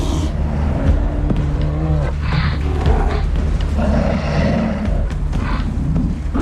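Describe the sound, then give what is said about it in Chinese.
Two young male polar bears play-fighting, giving low rough growls and roars over a continuous rumbling scuffle. “好在这两头年轻的雄性北极熊只是在玩闹而已，他们在等待海面完全封冻。”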